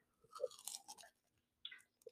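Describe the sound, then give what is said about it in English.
Chewing of a Ferrero Rocher chocolate: a few quiet, crisp crunches and wet bites in close succession, then a short pause before one more crunch. “Don't mind me, I'm just gonna eat a Ferrero Rocher.”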